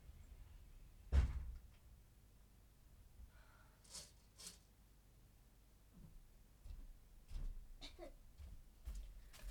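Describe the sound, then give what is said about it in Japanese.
A window being shut at home: a single dull thump, followed by faint, scattered knocks and rustles in an otherwise quiet space. “ミスに気づいたんだけど、玄関開けっぱなしだった。玄関窓、窓だ、窓開けっぱなしだった。ちょっと閉めてきます。”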